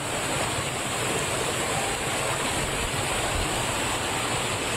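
Floodwater pours through gaps in big-bag barriers in front of a hotel building onto a street and into the drains in Mae Sai. It makes a dense, loud, constant rushing roar with no pauses.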